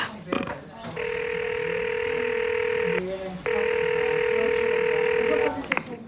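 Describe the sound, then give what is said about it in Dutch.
Ringing tone of an outgoing phone call: two long, steady buzzing rings of about two seconds each, separated by a short pause, with faint background noise and a few small clicks around them. “Zal ik meteen bellen? Ja. Oké, gaat die dan.”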